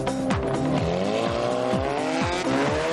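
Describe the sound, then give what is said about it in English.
A race car driving through a chicane: loud, continuous engine roar with a string of several falling pitch sweeps as the revs drop and climb again. “Well, that is very, very convincingly race car-like.”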